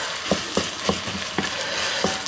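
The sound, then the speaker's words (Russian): Onion frying in a pan gives a steady, bright sizzle, broken by a few short scraping stirs spaced through it. “Вот. Лук пожарился. Добавляем морковь.”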